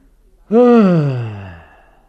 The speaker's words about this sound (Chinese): 张作霖显得十分疲乏，长长的打了一个哈欠说